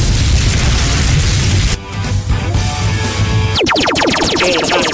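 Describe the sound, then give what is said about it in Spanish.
A fire jutsu sound effect in the style of Naruto: a loud, broad rushing roar, then a bright, crackling burst of flame that whooshes and sputters to the end. “Jutsu de fuego.”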